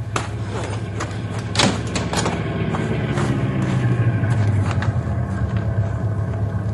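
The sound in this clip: A car coming to a stop, its low engine rumble settling while a few sharp clunks and knocks break in. The sound stays moderately loud and continuous, with no talking.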